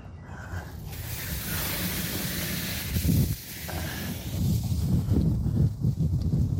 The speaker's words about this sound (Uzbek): Ha, havo bugun shamol. Endi bir soatlarda tinib qolsa kerak.